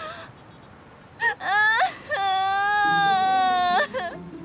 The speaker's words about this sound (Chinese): 你别哭了，有事好好说呀。